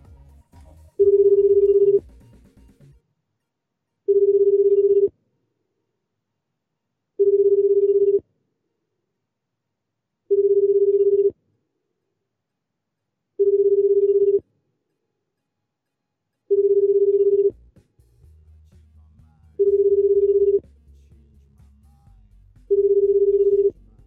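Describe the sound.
Telephone ringback on an outgoing call: eight evenly spaced, steady mid-pitched ring tones separated by silent gaps, with a low rumble underneath toward the end.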